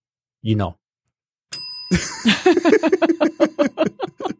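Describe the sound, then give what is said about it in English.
A bright, ringing bell cuts in just after a short vocal sound, its clear tone lingering briefly before a run of rhythmic voiced bursts follows. “But when you hear that bell that interrupts you speaking, it makes it very clear that, it makes you think about these things.”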